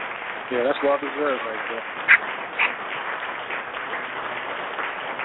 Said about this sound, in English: But definitely, a round of applause for what you do.